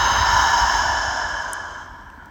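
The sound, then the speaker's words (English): A deep breath outdoors, in through the nose and out through the mouth, heard as one long, airy, steady breath that slowly fades in loudness. “And then we'll take a deep breath in through the nose and out through the mouth.”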